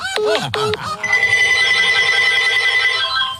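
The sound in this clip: A telephone rings during a call to order pizza: two quick swooping chirps, then a bright, loud, steady ringing tone that holds to the end.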